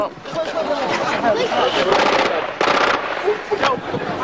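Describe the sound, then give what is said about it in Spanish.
Gunfire from an advancing armored tank moving toward a funeral site in Gaza: dense, crackling bursts of rapid shots, loud and continuous, with the heaviest volleys in the middle and near the end, mixed with voices. “Los disparos procedían de un tanque blindado que avanzaba hacia el lugar del funeral.”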